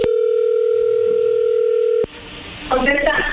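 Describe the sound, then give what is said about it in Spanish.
A telephone dial tone before a call is placed: a loud, steady single-pitch tone holds for about two seconds and cuts off abruptly, followed by quieter line noise and a brief voice-like sound. “pues vamos a llamarle”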